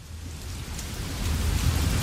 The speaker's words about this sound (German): Regen, Regen, Regen. Ja, der Herbst ist ja bekannt dafür, dass es gerne mal ein paar Tage durchregnet.